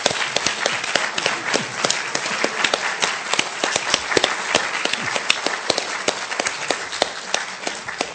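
Applause from a gathering congratulating someone on receiving an OBE: dense, irregular clapping from many hands, sustained at an even, fairly loud level from start to finish.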